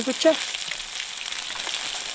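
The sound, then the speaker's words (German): Food fries in two pans at an outdoor mobile kitchen beside a lake in New Zealand, cooking foraged ingredients: a steady, dense sizzle and crackle that holds at an even level throughout. “In zwei Pfannen bereitet er alles zu, was wir gefunden haben.”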